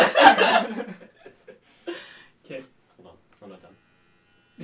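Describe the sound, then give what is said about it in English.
A short burst of electric shaver buzzing opens, lasting about a second, before people talk with brief chuckles between phrases. “You finish your review before you start shaving?”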